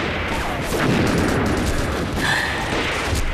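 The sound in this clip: Gunfire in a video game: dense, continuous shooting and booming blasts merge into a loud, steady wash of noise.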